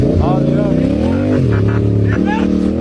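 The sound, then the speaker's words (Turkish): A motorcycle engine revs hard as its rider flees a police stop in Menemen, İzmir. The pitch climbs, drops and climbs again with gear changes, loud and continuous throughout. “Ancak uyarılara aldırış etmeyen sürücü motosikletiyle hızla kaçmaya başladı.”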